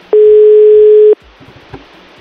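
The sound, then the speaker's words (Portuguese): A telephone dial tone sounds while a call is being placed. The tone is loud, steady and unbroken for about a second, then stops. Faint background noise and a few soft knocks follow. “Vamos ter que saber o que aconteceu. Eu vamos ligar pra Beatriz.”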